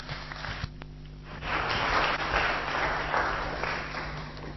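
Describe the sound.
Audience applause welcoming a speaker to a talk, starting after a brief quieter moment and then carrying on as an even, moderately loud patter of clapping to the end.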